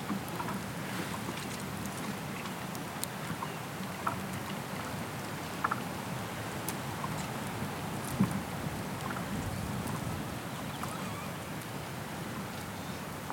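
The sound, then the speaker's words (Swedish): Wind blows through a rowan tree, making a soft, continuous rustling hiss with a few faint clicks and ticks scattered throughout. The sound is quiet, with no talk. “Jag hoppas ni haft en, en bra stund. Lyssnandes på vindens spel i den här rönnen.”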